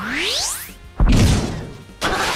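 Power punch attack in a video game battle: a rising whoosh sweeps upward, then two heavy crashing impacts land about a second apart.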